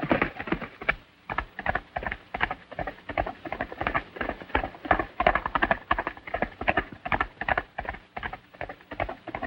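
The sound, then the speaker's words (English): Galloping hooves of a horse ridden hard out of a ravine, with many rapid, rhythmic hoofbeats thudding steadily throughout at a fairly even loudness, no voices. “Meanwhile, Zanty gallops out of the ravine. John follows, hot on his heels.”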